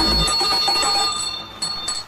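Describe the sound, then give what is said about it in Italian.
A bicycle bell rings in bright, sustained metallic tones that shimmer and slowly fade, with a couple of softer strikes near the end. “Sali in sella e suonate la campanella.”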